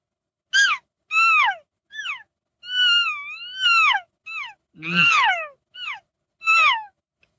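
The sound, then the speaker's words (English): A voice imitates a lost calf call as a string of high, whining, mewing cries, each note bending and falling in pitch, with short gaps between them and one longer drawn-out call in the middle. “calf sequence, like a lost calf sequence would sound like this.”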